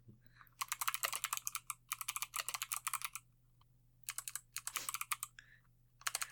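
Typing on a computer keyboard comes in three quick bursts of clattering keystrokes separated by short pauses, with a low steady hum underneath.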